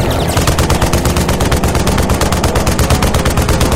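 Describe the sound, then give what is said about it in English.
An RPK machine gun fires one long, unbroken burst from a vehicle, a loud, steady string of rapid shots at an even rhythm for several seconds with no talking. “Burst length is way long. They're gonna burn out the RPK's barrel mighty quick.”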